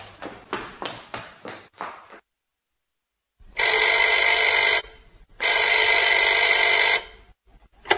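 A telephone bell rings twice in long, loud, steady bursts separated by a short gap, preceded by a few sharp knocking clicks and a brief silence.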